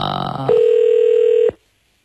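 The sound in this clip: A telephone ringing tone plays on an unanswered call: one steady, single-pitched tone holds for about a second and then cuts off abruptly into silence. A brief mixed electronic sound comes just before it.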